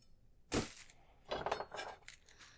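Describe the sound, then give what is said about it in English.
A kitchen knife scooping, heard as faint clinks and scrapes: one sharp clack first, then a run of several quick taps and scraping strokes. “Oh, another thing I forgot these knives can do really well is scoop.”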